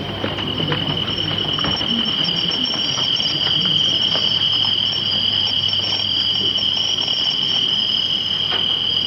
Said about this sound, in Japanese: 学校の教室ほどの部屋に虫かごが70個ほど並べられ、審査員たちは息を殺して一つ一つに耳をそば立てます。